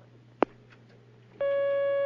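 A steady telephone line tone sounds as a phone call is taken, starting partway through after a single brief click and holding loud and unbroken to the end, with no talk over it.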